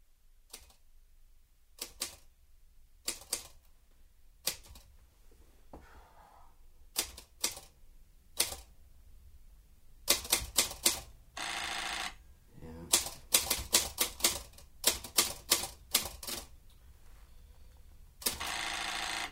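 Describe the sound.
A typewriter types out a sentence in short, irregular bursts of sharp mechanical clacks separated by quiet gaps. The keystrokes grow denser and louder later on, with a few longer rasping stretches between the bursts.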